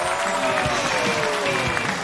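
Dense audience applause welcoming a well-known actor onto a stage show, an even, continuous clatter of many hands with no voices.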